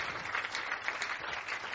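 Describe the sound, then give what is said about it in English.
An audience clapping during a church sermon: a continuous, dense wash of hand claps, moderately loud and sustained, with no speech on top. “Clap for Jesus.”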